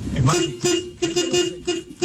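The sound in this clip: Car horns honk in a traffic jam in Colombia, a few short and longer toots at a steady mid pitch that overlap with an excited voice shouting.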